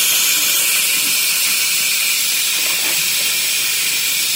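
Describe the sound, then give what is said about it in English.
A pressure cooker full of beef broth releases steam in a loud, steady, unbroken hiss that holds at an even level throughout. “and as the pressure comes out, it'll be a little bit better. But boy, yeah, there's a lot of broth in there now.”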